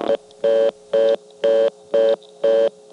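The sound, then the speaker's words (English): Telephone line tones on a call into a telephone exchange in Cabot: a steady mid-pitched beep pulses on and off evenly about twice a second, five full beeps between clipped ones at each end. “you dial the last two digits. Dialing the 4 without the 2 first is always a mistake, and so normally they would do this.”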